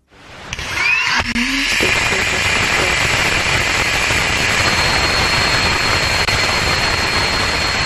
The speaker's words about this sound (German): Körperschall, Vibrationen, die durch Triebwerke, Struktur und Zündung entstehen, die wurden aufgezeichnet und algorithmisch in hörbaren Sound umgewandelt.